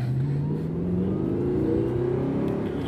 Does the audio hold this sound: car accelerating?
yes